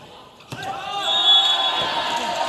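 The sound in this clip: A volleyball float serve by a 1.85 m middle blocker of the Nanjing Xuanwu team scoring an ace: one sharp hit on the ball, then crowd noise under an excited commentator's voice.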